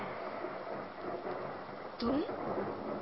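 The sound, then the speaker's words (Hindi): Storm sound effect of torrential rain driven by wind, a steady broad wash of rain noise, with a louder rumbling swell of thunder about two-thirds of the way through. “मूसलाधार बारिश हो रही है और वायु तो जैसे कब्रस्तान की सफाई कर रहा है।”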